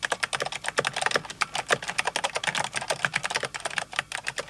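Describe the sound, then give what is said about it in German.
Fast typing on a computer keyboard: a rapid, irregular clatter of many crisp keystrokes, some louder than others, running without pause and with no voices. “Erreicht eine Spitzenkraft, die Rekordquote von 600 Anschlägen in der Minute, spricht man von schnellem Schreiben.”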